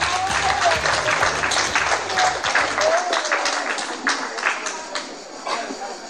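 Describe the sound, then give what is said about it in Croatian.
Audience applause as performers are called onto a stage: a loud, dense patter of many hands clapping continuously, with some voices over it early on, thinning slightly toward the end. “direktoricu prve grupe i drugu grupu da izađe na scenu. Aplauz!”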